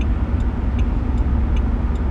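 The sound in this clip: Low, steady road rumble of a car driving at night, with a faint regular ticking that repeats about five times.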